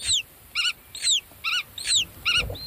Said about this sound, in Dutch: wat je hier hoort zijn grutto-ouders die rondvliegen boven het veld en communiceren met hun jongen in het ei